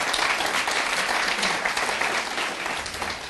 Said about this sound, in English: Let's give the Lord a big hand, please.